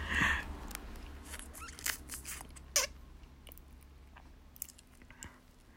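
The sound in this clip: Chewing food, with a few crisp, crunchy bites and soft wet mouth clicks spread through a short stretch. The sounds are fairly faint and no voice is heard.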